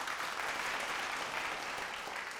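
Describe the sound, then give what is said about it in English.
Audience applause for Adam Sandler, seated in the crowd at a live comedy show. Many hands clap in a dense, steady wash at even loudness for a couple of seconds, with no talk over it. “We've got Adam Sandler here. Give it up for him.”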